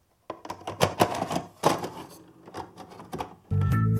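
A videotape being wound back by finger produces irregular plastic clicks and rattling taps, with some louder and some softer, and then a steady buzzing hum.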